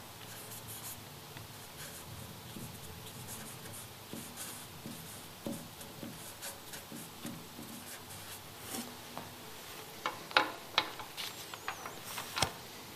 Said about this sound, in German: Eine schöne Eigenschaft. Schreiben wir mal einfach so.